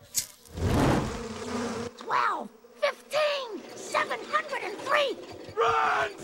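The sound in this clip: Insect buzzing from a swarm of bees around a hive: a loud, rough burst followed by warbling, voice-like cries and moaning tones that continue to the end.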